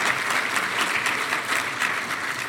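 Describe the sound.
An audience applauds a guest, a former Director General of Eurocontrol, as he is welcomed on stage. Loud, continuous, dense clapping lasts the whole clip without a break.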